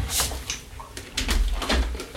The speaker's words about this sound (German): Sekunde, ich muss mal gerade hier ein Fenster schließen.